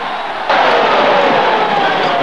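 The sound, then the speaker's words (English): An enormous stadium crowd at an American football match does a Mexican wave, a broad roar of cheering that surges up suddenly and then stays loud and steady. “An American football match. The enormous audience in the auditorium do a Mexican wave.”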